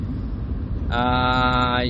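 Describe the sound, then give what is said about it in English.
A car driving on the road, with a steady low rumble of engine and tyres throughout; a steady tone joins partway through. “I'm driving right now, and it's about 30 kilometers to my destination, so I have about 20 minutes”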